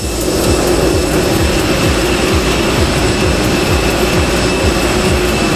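Aircraft engines running before departure make a steady, loud roar with a high whine held evenly throughout, unbroken and with no voices.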